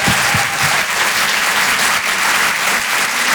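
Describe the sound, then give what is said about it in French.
An audience applauding a comedian as he is introduced, loud sustained clapping from many hands that holds steady throughout, with no talking over it. “Je vous demande de faire un maximum de bruit, s'il vous plaît, pour Donnell Jacksman.”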